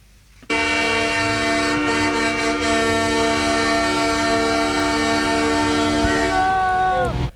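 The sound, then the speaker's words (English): Horns blaring at huge street protests blocking roads in Ottawa, Canada: a loud, dense, layered chord of many sustained horns that holds without a break for several seconds. Some tones bend downward near the end. “Now, that's the sound from the streets of the Canadian capital, Ottawa, and people have now been ordered to stop honking their horns, those taking part in these huge protests which have been blocking streets around the city.”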